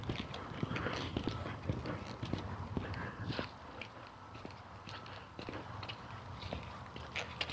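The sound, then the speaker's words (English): Footsteps on a mountain trail at 4,800 feet: many steady, regular footfalls with a brief quieter stretch midway. “And yet I'm walking here. Where I'm walking right now is 4,800 feet.”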